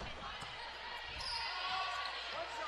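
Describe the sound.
A basketball is dribbled during a Lady Bombers women's game, several dull bounces thudding under a steady murmur of crowd noise in the gym.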